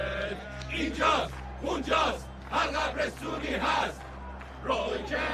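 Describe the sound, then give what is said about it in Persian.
A football crowd chants the Roy Keane chant, many voices roaring together in loud, rhythmic phrases that repeat with brief dips between them. “شعاری که برای روی کنت میخونن”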